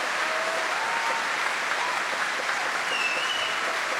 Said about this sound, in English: As we await Macbeth himself, Jelko Lucic, who gets his cheer.